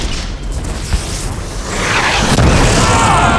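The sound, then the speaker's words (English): An explosion blast sound effect: a loud, broad roar that swells midway into a heavier, sustained rumbling boom, with a brief sharp crack inside it, and stays loud to the end. “The blast hurled Collins into the wall, pinning him there for a moment like some bug under a microscope.”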